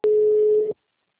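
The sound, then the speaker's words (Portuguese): A telephone tone after a dropped call: one steady mid-pitched beep lasting under a second, starting abruptly and cutting off into silence. “A ligação caiu.”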